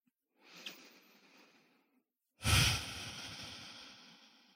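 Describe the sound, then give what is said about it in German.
Deep, slow breathing in and out during a guided heart-centre meditation: two long, airy breaths, the second louder and fuller than the first, with no talking. “Dann atme ein paar Mal tiefer ein und aus in dein Herzzentrum jetzt.”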